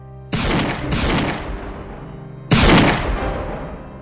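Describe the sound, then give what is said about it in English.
Three gunshots: sharp, loud cracks, each trailing off in a long, decaying boom. The first two come close together, and the third, the loudest, follows after a pause of more than a second. “A few minutes later, shots could be heard.”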